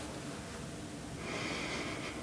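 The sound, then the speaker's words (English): A single soft, drawn-in breath rises out of faint background noise partway through and holds steady to the end, with no talking. “as I sit still for a moment and begin to move some things around, and I quiet myself and I draw a breath”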